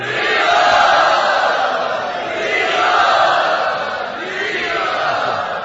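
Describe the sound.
A theatre audience loudly cheers and roars to welcome a guest onto the stage in Bombay, a sustained crowd roar that swells twice before easing slightly, with no single voice standing out.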